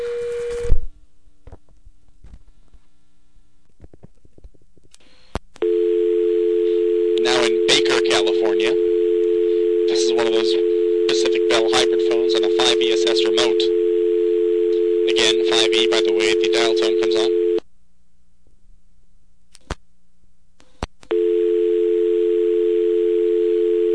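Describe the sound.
A payphone tone after the phone took coins at a payphone in Pacific Palisades, California: a steady tone drones for about twelve seconds with a recorded voice speaking over it, cuts out, then returns.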